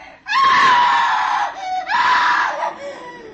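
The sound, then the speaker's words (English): A woman screams on a stormy night, two long, high, piercing shrieks, the second following a brief dip and trailing off into a fading wail. “I knew it was my sister who had screamed.”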